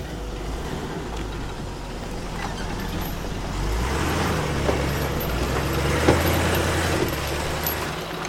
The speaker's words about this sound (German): An einem heißen Tag im Januar 2022 fahren wir eine einsame Lehmstraße hinauf, durch den Wald, zu dem Haus, in dem Wagner gestorben ist.